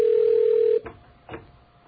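A telephone ringing tone on an outgoing call: a steady, even tone holds for under a second, then stops, followed by two brief, soft bursts of sound with no talk.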